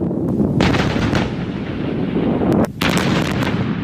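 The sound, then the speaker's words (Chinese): An artillery company fires a salvo during a live-fire exercise. Several heavy booms merge into a loud, sustained roar, which drops briefly and then swells again with another blast. “全连一发齐射，放！”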